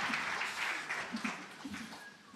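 Faint audience applause welcoming a pastor to the stage at a church, a steady patter of clapping throughout.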